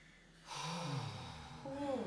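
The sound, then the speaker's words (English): A deep inhale and exhale: one long, loud, breathy breath that starts after a short quiet moment and turns faintly voiced near the end. “So before we begin, deep inhale and exhale, please.”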